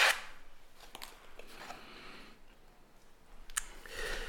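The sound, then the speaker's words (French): An icebreaker question card drawn from a deck: quiet papery sliding and a few light clicks, with no talk. “est-ce que tu peux tirer une petite carte de questions de brise-glace”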